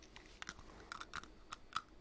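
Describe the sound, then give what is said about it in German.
Biting into a pen makes faint, crisp crunches and clicks, several small cracks at irregular intervals with no talk. “Sie haben in den Stift gebissen.”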